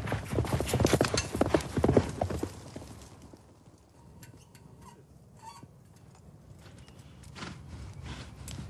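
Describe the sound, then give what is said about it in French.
Horses gallop down a track over 200 metres long in Japanese mounted archery, hooves clip-clopping in quick thudding beats that are loud at first, fade in the middle, then grow again toward the end. “Les cavaliers doivent galoper sur une piste longue de plus de 200 mètres”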